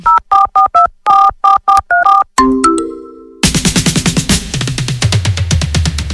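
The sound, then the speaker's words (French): Mobile phone keypad tones sound while a text message is sent: a quick run of many sharp, evenly pitched beeps in short bursts, followed by a bright electronic jingle with a string of rapid, ringing notes. “finir d'envoyer son texto”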